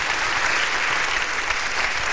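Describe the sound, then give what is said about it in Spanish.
An audience applauds during a Spanish-language church service. Many hands clap in a thick, steady roar that stays at full loudness throughout. “¿Cuántos vivos pueden darle un aplauso al Dios de la gloria?”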